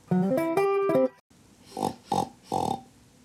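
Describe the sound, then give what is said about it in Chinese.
Three short, nasal oinks from a little pig in a children's story, in quick succession after a brief melodic tonal phrase. “I'm a little pig, oink oink oink.”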